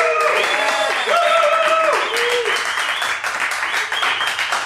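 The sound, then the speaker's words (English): A live studio audience at the Dairy Block inside the Milk Market applauds and makes noise, with loud continuous clapping and sustained whoops and cheering voices rising above it throughout. “We have a live studio audience, if you guys want to make yourselves heard.”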